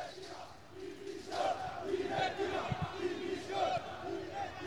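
A crowd of about a hundred football supporters waits outside the stadium on the Camí dels Reis in Palma, chanting and shouting in a steady rhythmic swell. The sound is fairly faint.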